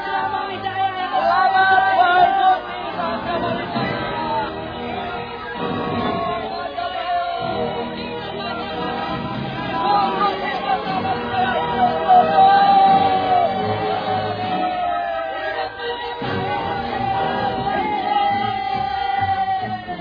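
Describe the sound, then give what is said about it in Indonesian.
A crowd of townspeople in the city of Kediri cheers a departing procession of Majapahit soldiers and villagers, with sustained shouting, whooping and bellowing that stays loud and steady throughout. “Di sepanjang perjalanan, mereka mendapat sambutan hangat dari warga kota Kediri.”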